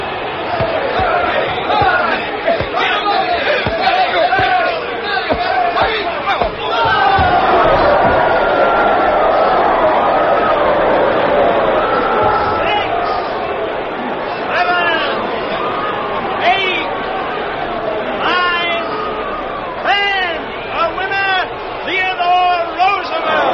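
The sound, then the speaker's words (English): A crowd cheers and shouts at a collegiate boxing match at Harvard, a dense, loud roar of voices and chatter that holds steady for the whole stretch, with sharper yells rising out of it now and then. “He proved it in a collegiate boxing match.”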